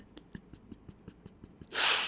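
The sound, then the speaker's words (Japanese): A single loud, breathy sneeze bursts out near the end, after a quiet stretch of faint, regularly spaced ticks. “くしゃみ出ちゃった。”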